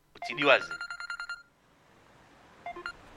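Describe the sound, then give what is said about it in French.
An electronic telephone ringtone announces an incoming call from an archive office: a quick burst of repeated beeping tones, then a pause before a shorter second burst. “Attends, attends, je crois que j'ai un appel des archives.”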